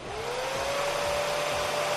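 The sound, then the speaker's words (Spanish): A hair dryer runs, held by a woman sitting in a terrace chair by the roadside: a loud, steady rushing whoosh with a thin whining tone that rises slightly at the start, then holds. “Sí, un secador de pelo.”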